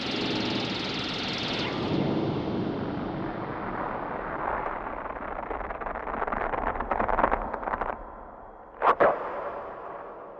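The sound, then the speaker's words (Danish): Explosion sound effect in a radio drama: a long roaring, crackling blast whose noise gradually sinks and fades, then a sharp double burst near the end. “Men nu eksploderer det.”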